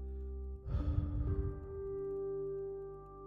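A single breath out through the mouth during a guided breathing exercise, heard as a soft, breathy whoosh lasting about a second over a quiet sustained tonal drone.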